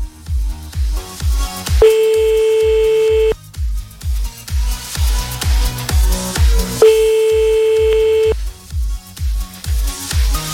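A telephone rings on a call back: two long, steady ringing tones about five seconds apart, over a pulsing rhythmic music bed.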